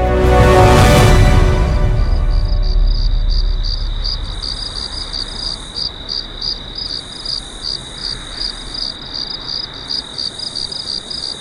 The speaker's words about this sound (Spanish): con el canto de los grillos